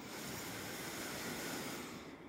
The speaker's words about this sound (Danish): Og uanset hvad du mærker, så skab plads omkring det ved at tage en dyb indånding gennem næsen.